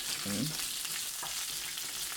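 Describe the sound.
Chili, cumin and mustard seeds fry in hot oil, giving a steady, fairly quiet sizzling hiss that continues evenly throughout.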